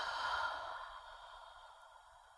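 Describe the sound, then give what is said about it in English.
A single long exhaled breath during a guided deep-breathing exercise, a soft, airy sigh that is faint from the start and gradually fades away. “Take a deep breath in. And exhale.”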